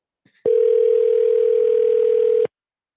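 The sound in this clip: A single telephone ring on a call to an alarm company. The steady mid-pitched tone lasts about two seconds, starts and stops abruptly, and has no voices around it.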